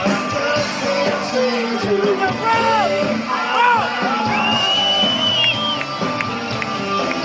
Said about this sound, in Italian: La maratona a New York, beh, questa è una registrazione dell'arrivo, avete sentito l'entusiasmo